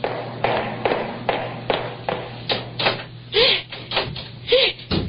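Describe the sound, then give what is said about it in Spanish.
A key rattles and turns in a door lock, a series of dry mechanical clicks and scrapes at a steady, uneven rhythm with a couple of brief squeaky notes near the end, over a low steady hum. “¡Le echó llave el desgraciado! ¡Me deja encerrar con llave!”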